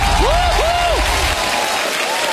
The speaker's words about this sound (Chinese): 谢谢大家热烈的掌声啊